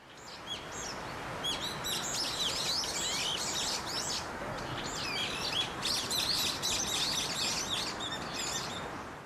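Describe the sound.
Birdsong as a nature sound: several birds chirp and trill in quick overlapping phrases over a steady broad rushing background, with no voices.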